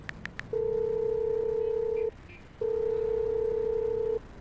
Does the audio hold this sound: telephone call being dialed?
yes